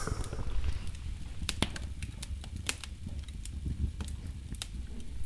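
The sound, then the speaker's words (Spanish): A fire crackles in a fireplace, sending out sharp, irregular pops and snaps over a low, steady rumble. The sound stays fairly quiet throughout. “Ese sonido que estáis escuchando es el crepitar de una chimenea, de un fuego bailarín que está justo enfrente nuestra.”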